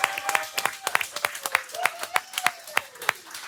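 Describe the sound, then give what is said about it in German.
Scattered applause from an audience honoring an ice hockey club official: uneven, sparse claps with distinct individual strikes, moderately faint. “Machen wir nochmal einen Applaus, weil der Thomas hat sich's mehr als nur verdient.”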